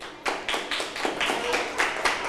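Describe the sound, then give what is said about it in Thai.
Scattered hand claps for a classmate in a class, quiet and irregular, with many short sharp slaps spread across the moment rather than one steady burst. “เดี๋ยวปรบมือให้เพื่อนหน่อยค่ะ”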